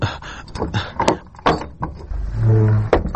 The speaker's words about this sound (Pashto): اجازه ده مولوی صاحب، دروازه به ور وټکوم.